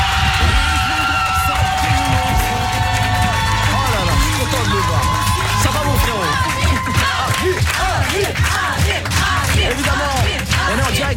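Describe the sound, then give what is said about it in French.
A crowd cheering, whooping and clapping to welcome Amir on stage, a loud, dense roar that stays steady throughout, with music playing underneath during the first half before it drops away. “Mesdames, messieurs, je vous demande d'accueillir Amir.”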